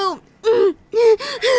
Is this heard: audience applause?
no